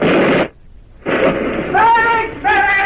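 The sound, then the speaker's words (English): Mortar shells burst in a wartime battle scene: a short roaring blast of noise, a brief lull, then a longer rumbling burst with a voice rising over its later part. “Those mortar bursts have shaken you back to life.”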